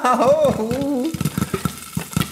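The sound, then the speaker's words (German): Homemade popcorn pops in a pot: after a brief voice, several sharp, separate pops burst out irregularly over a soft sizzle. “Wann poppt denn der Popcorn endlich? Oh, es ploppt. Wow.”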